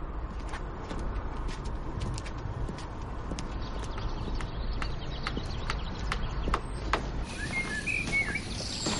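Footsteps of a man walking along a deserted street lined with run-down houses: a steady series of sharp clicking steps over constant low background noise, with faint bird chirps near the end.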